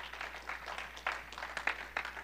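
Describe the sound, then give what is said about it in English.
Scattered hand clapping from a church audience, a few sharper claps standing out from a faint, irregular patter with no speech over it. “Clap your hands in this place if you believe that.”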